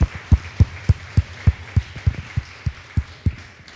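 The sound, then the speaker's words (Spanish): Congregation applause during a Spanish-language church sermon, heard as a run of steady, rhythmic claps with a thumping low edge, repeating at an even pace throughout. “Denle un fuerte aplauso al que merece toda gloria y honra.”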